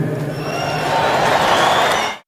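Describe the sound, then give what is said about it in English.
Applause and cheering from an audience at an Australian football event, reacting to comments on the Voice to Parliament. The clapping swells steadily in loudness before cutting off abruptly. “those comments probably received a 50-50 split of applause”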